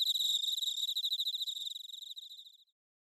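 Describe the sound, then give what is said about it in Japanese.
Crickets chirping as an autumn sound in Japan: a rapid, high, pulsing trill that runs on steadily, grows fainter and then stops before the end, leaving silence. “There go the crickets. Yeah. I hear a lot of them.”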